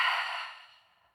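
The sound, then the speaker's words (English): A long yogic exhale through the mouth, a soft breathy whoosh that starts full and fades steadily to silence over about a second. “Inhale, lower belly. Inhale, upper chest. Exhale through the mouth, let it go.”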